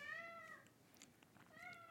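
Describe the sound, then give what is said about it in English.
A pet cat meows twice. The first meow comes at the start and the second near the end, with a quiet gap between them. Both are faint, tonal and a little drawn out over a low background hiss. “And that's my cat.”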